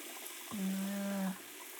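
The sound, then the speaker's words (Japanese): Hot water running from a tap as a shampoo rinse begins, a soft steady rush with a low humming tone that swells for about a second in the middle and then drops back, with no voices. “もうちょっとで温かいお湯が出ますよ。”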